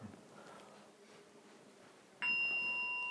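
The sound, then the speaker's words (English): A small bell struck once during a meditation session rings out with a clear, bright tone and shimmering overtones, sustaining to the end after a quiet stretch. “Could we just have a wee bell?”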